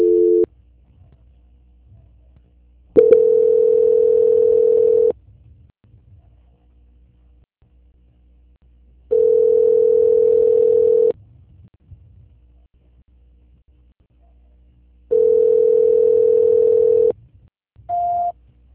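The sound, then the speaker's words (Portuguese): Telephone tones play while a call is being transferred: three long, steady mid-pitched beeps of about two seconds each, separated by silence, then one short, slightly higher tone at the end, with no talking. “Só um momento enquanto eu transfiro a ligação”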